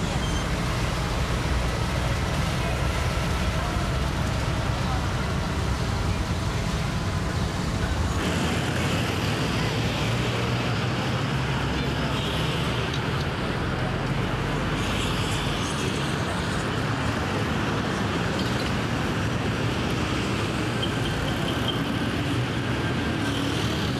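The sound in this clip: Road traffic in Nairobi, with vehicles of many designs and sizes, makes a continuous, loud rumble and roar that carries on without a break.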